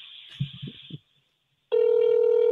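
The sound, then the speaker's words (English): A ringback tone on an outgoing telephone call: a steady, unbroken ringing tone starts after some brief muffled sounds and a short pause, then holds loudly to the end. “Oh, we're getting rings. It's not voicemail.”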